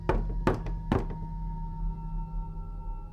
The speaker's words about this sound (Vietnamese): Cụ vừa về buồng đóng cửa, còn chưa kịp bước đến giường thì tiếng gõ cửa lại vang lên.